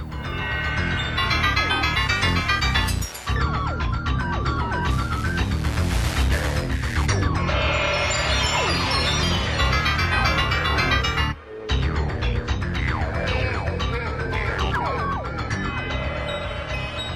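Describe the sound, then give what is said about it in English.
Creepy boss music from a video game's US soundtrack plays as a dense, continuous track with wailing, siren-like synth glides. Two brief dropouts break it, one near the start and one past the middle. “And that was the boss music for the US soundtrack, and it hugely creeped me out as a kid.”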